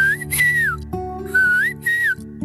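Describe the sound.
Melodic whistling forms part of a song: three whistled phrases of high tones that glide up and down, over steady instrumental backing.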